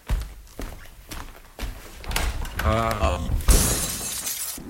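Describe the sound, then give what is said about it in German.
Glass shatters as an armchair is thrown through a window. A few dull knocks and shuffling steps lead up to it, and then a loud, bright crash of breaking glass near the end. “Ich muss den Sessel durch das Fenster werfen.”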